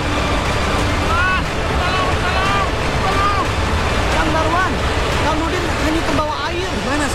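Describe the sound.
Rushing flash-flood water roars as a loud, steady, dense wash of noise, with people shouting over it throughout.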